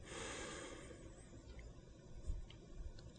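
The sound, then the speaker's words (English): A deep breath drawn in with eyes closed, a faint, drawn-out airy hiss of inhalation that stays soft and low throughout. “We take a deep breath in”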